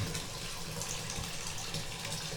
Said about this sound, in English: Let's see if we can get the hot water going. Am I turning it the wrong way? Yes. I don't know how to turn the water on. I'm that dumb. There we go.